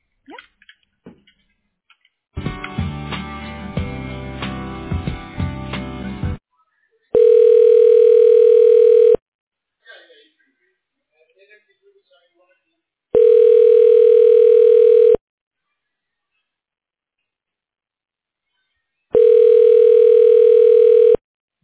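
Ringing tone on a telephone line during a call transfer to a health center extension: three long, steady tones of about two seconds each, evenly spaced with silence between, preceded by a burst of clicky line noise.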